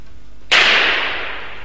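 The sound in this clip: Gunshot effect in an Italian song, a single sharp crack followed by a hissing decay that fades over about a second.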